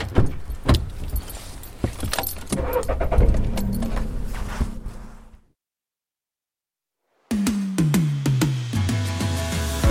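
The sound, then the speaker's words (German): Keys jangling and sharp clattering car noises, then a short break of silence before a car engine starts and runs with a steady low hum that settles down in pitch. “ich fahre jetzt wieder zurück nach Wetzlar”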